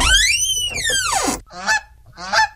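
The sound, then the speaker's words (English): A goose honking: one long, drawn-out nasal honk that bends down at its end, followed by two shorter, rougher honks, with no other sounds. “it's that goose from next door”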